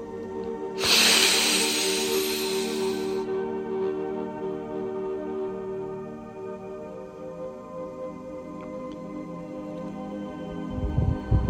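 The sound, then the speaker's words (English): A single deep breath taken during a guided moment of centering: a long, airy rush lasting about two seconds, fairly loud, then fading into a steady low hum with no talk. “take a deep breath with me and just be in the moment, be centered, and be here”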